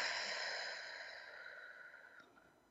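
A slow, controlled breath pushed out through pursed lips as if through a straw, a soft airy hiss that gently fades over nearly three seconds.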